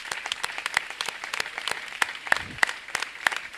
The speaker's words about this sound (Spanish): Sí, un aplauso para Daniel Solano.